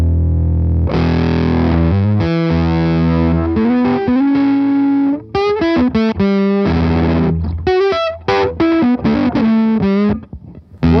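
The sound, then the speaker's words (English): Heavily fuzzed electric guitar played through a rebuilt fuzz circuit, with loud, buzzing sustained chords and single notes, first ringing out long, then breaking into choppier, quicker phrases with short gaps. “So I took it to Chris, and he sort of rebuilt the whole fuzz circuit as it would have been. And this is the result.”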